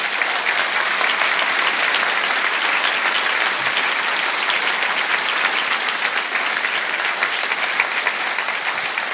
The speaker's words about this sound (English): Can we give him another warm hand to thank him?